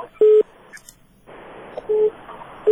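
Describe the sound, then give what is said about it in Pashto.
A telephone busy tone sounds after a caller's line to a radio call-in program drops. A few short, steady low beeps are separated by hissy line noise. “متاسفانه دوی تلفن هم قطع شد.”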